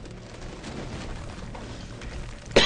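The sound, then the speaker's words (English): A time gun firing in a video game: low, rumbling booms at a modest level, ending in one sharp, louder burst. “So we're shooting the time gun. We rebuilt.”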